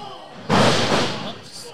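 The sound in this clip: A wrestler hits the mat in a scoop slam, landing as one sudden, loud, heavy thud that booms and then fades away slowly.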